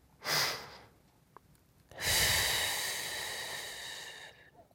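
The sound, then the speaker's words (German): A breathing exercise: one short, sharp inhale, a pause, then a long, slow, breathy exhale that holds steady and gradually fades. “Also, einatmen und dann langsam und bewusst ausatmen. Los, macht mal mit.”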